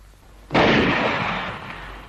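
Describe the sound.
A single sharp, loud gunshot fired toward a small boat on a lake bursts out after a short quiet moment. Its blast then rings on in a long tail that slowly fades.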